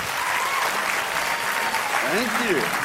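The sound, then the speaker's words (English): Audience applause welcomes a speaker on stage at a presentation in Sydney: a steady, dense wash of clapping that holds at an even loudness throughout, with a voice briefly audible near the end. “So let's give him a very, very big Sydney welcome. Let's put our hands together for Don Tolman.”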